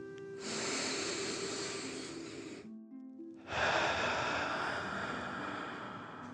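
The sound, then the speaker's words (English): A deep dragon breath from a guided meditation breathing exercise: one long, airy inhale, a short pause, then an equally long, rough exhale. Both are steady, breathy rushes of air heard alone. “take another deep dragon breath in and out”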